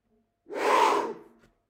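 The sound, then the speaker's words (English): One deep breath is drawn in sharply through the mouth, a loud, rushing airy inhale lasting about a second that swells and then tapers off, with silence before and after. “Now, with a breath like that, you can do anything.”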